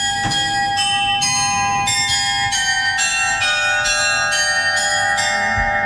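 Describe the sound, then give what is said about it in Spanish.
Bells of a medieval astronomical clock inside the cathedral in Münster chime in a steady sequence of many clear, glassy strikes. They ring over a sustained resonant hum, with no voices. “Así que lo grabé yo este sonido en la catedral de Münster, en el interior, que guarda un precioso reloj astronómico medieval.”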